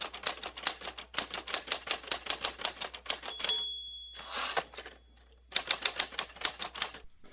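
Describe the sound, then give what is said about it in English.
A mechanical typewriter types in rapid bursts of clattering key strikes separated by short pauses. A single bright bell ding rings partway through. “if you learned to type on a mechanical typewriter, one of those that dings a little bell to prompt you for a carriage return,”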